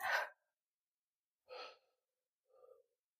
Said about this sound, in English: Take a deep breath. Deep breath in.